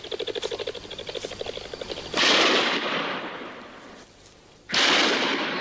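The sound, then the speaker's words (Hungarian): Two loud, sharp blasts from a rifle being fired. Each has a long, noisy, rumbling decay, and the two are spaced a couple of seconds apart. A rapid rattling pulse train runs for about two seconds before them, with no voices. “De jó Isten, a puskám! Ez megőrült! Ez használja is!”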